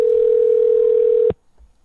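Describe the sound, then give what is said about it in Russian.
A steady telephone dial tone hums while a call is being placed. The single unbroken tone is loud and even, then cuts off abruptly, leaving near silence. “Сейчас я йому позвоню”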